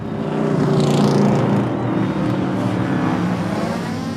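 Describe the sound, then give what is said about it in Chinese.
Cars revving hard in a street race, a loud, continuous engine roar with a thick low rumble that swells briefly early on and then holds steady throughout. “飙车大战。”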